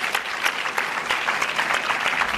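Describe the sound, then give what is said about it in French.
A studio audience applauds an actor's arrival on a television set. The clapping is dense and steady for the whole clip, with no voices rising above it. “Mesdames et messieurs, on applaudit l'acteur Kessie Mottet-Klein, s'il vous plaît.”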